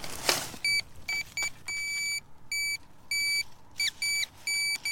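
A metal detector signals non-ferrous metal with many clear, high electronic beeps of varying length in an uneven pattern, following a brief noisy burst at the start.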